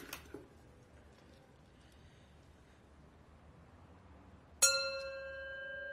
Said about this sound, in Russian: протирает бокал и стучит по нему ручкой.